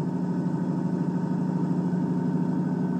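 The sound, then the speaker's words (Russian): Engines of a Kelmorian transport ship running in flight: a steady, low rumbling drone with a constant hum that holds unchanged from start to finish. “«Оружие к бою!» Приказал он, едва заработали двигатели. И килмарийский транспортник затрясло в воздухе.”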